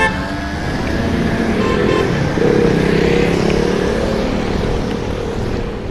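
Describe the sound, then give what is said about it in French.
Traffic jam on Paris roads near the Seine quays: a dense, continuous rumble of engines and road noise, with a sustained horn-like toot rising out of the mix midway. “Ben là, on est en plein dans les bouchons parisiens. On n'est pas loin des quais de Seine.”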